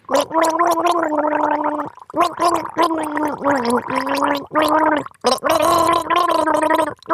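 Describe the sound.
A person gargles water while voicing a melody to imitate a dance song's tune. The loud, bubbly, pitched gurgling comes in a few phrases separated by brief gaps.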